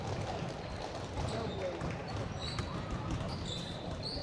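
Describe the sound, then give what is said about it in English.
A basketball is dribbled on the court during a girls' high school game between Oakland and Cookeville, a few dull bounces rising over the hum of the crowd and voices in the gym. “Couple of dribbles, eyes the basketball up and good.”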